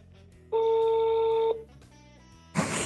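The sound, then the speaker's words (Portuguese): A single ring of an outgoing phone call: one steady electronic tone lasting about a second starts and stops sharply, followed by a quiet gap and then a burst of noisy sound near the end. “vamos lá, vou ligar aqui, ó.”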